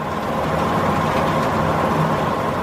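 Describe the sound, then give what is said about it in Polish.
The engine of a large ship rumbles close by in a loud, steady low drone with a constant hum. It holds even throughout, with no voices. “gdy gdzieś zupełnie blisko zawarczał silnik wielkiego statku zmierzającego wprost na nich”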